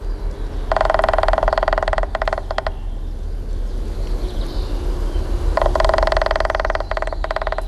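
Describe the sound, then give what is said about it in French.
A male woodpecker drums on a tree trunk in two loud bursts of rapid, buzzing taps with a resonant tone, separated by a few seconds of rustling background. “Alain a raison, c'est bien un pivert qu'on a entendu, c'est même un mâle. Parce que s'il tape sur le tronc d'arbre pour produire le son qui a été diffusé, c'est pour marquer son territoire”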